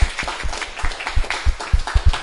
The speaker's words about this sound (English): Can we give a round of applause to Aram because he came here all the way from Long Island?